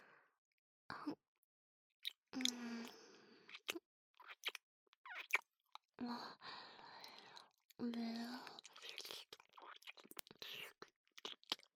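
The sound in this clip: Wet licking and eating mouth sounds in an intimate roleplay come in soft, irregular bursts of smacks and clicks, with quiet whispering woven between them.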